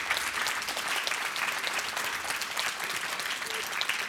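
Applause from an audience honouring a woman's karma yoga work with children, a dense, even patter of many hands clapping that is fairly faint and steady for the whole clip.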